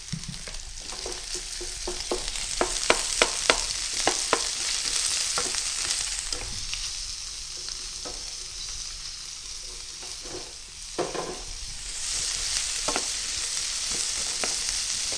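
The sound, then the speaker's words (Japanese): Stir-frying onion and green pepper in a pan: a steady sizzle threaded with many sharp crackles and pops. The sizzle briefly thins and dips partway through, then rises again. No one speaks. “20秒ほど炒めたところで野菜、玉ねぎ、ピーマンを一度に加えて炒めます。”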